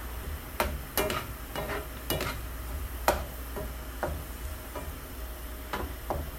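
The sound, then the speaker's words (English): Onions browning in a frying pan are stirred, making many irregular scraping clicks over a steady low sizzle, with no voices. “Some of these are browning more than the rest. I'm stirring more to sort of even it out.”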